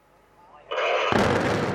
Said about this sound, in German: Vor 2 Jahren wurden der große Kühlturm und die beiden über 100 Meter hohen Schornsteine vom Steinkohlekraftwerk Ensdorf gesprengt.